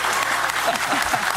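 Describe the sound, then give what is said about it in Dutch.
Studio audience applause on a Dutch television football talk show: a short burst of dense, even clapping with voices talking over it. “Applaus, ja!”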